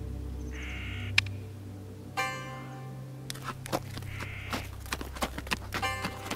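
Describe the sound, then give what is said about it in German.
A donkey plods slowly along beneath trees, its hooves giving a run of soft, irregular knocks, with a sharp tongue click early on and crow caws sounding over a low background hum. “Er schnalzte wie immer mit der Zunge und der Esel zuckelte gemächlich weiter.”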